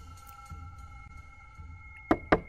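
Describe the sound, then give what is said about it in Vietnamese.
Dry, sharp knocks strike a rickety wooden door from outside, landing in a quick cluster at the end after a steady, faint humming background. “ba tiếng gõ khô khốc vọng vào từ ngoài cửa làm lão rú lên”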